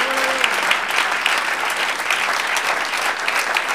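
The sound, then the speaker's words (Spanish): Audience applause given to the Lord at a religious gathering, a dense, even wash of many hands clapping that holds steady for several seconds with no voices on top. “Démosle un aplauso al Señor.”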